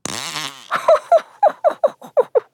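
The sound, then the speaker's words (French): Fart noises in a quick run of many short, bubbly bursts, loud and in a steady, almost rhythmic pattern, each one a brief blurt with no talk over them. “Comment? Qu'est-ce que j'entends? Prout, prout. Prout,”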